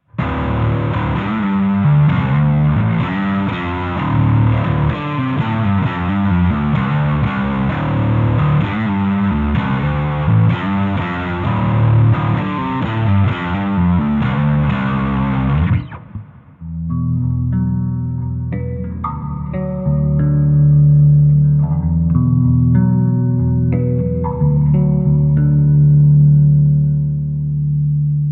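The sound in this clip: Distorted bass guitar tone heavy with effects, tested as a budget bass under £300: a dense, loud, fuzzy wall of sound for about sixteen seconds, then cleaner, sparser sustained notes ringing out alone.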